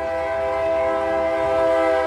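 A train starting up at a depot gives out a loud, steady, horn-like tone with a rich stack of harmonics. It holds unbroken from start to finish.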